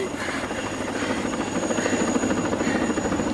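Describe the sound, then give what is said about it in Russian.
A helicopter flies over a forest, its rotor making a steady, loud drone with a fast, even pulsing throb. The sound holds at the same level throughout, with no voices. “Над лесом летит вертолет.”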